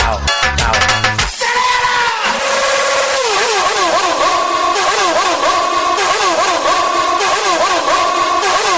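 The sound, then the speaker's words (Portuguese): Motorcycle engines rev loudly at a beach bar during a live DJ set. Their pitch rises and falls repeatedly in wavering bursts over a continuous, dense roar of noise. “Só quem veio de moto, acelera, acelera, acelera.”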